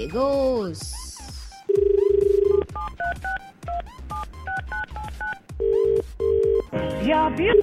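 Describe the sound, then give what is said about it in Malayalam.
A telephone call being placed: a steady dial tone, then a quick run of many keypad dialing beeps, followed by two ringing bursts as the line connects. “ആള് ബിസിയാണോന്ന് അറിയില്ല, വെറുതെ ഒന്ന് വിളിച്ചോക്കാം നമുക്ക്.”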